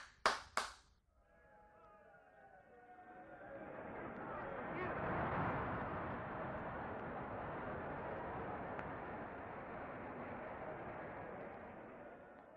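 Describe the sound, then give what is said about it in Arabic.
Theatre audience applause: after a few sharp opening claps, it swells into sustained clapping that holds steady and fairly faint to the end. “التياترو الليلة كسب مكسب جديد. سامع التسقيف؟ سامع يا ابني؟”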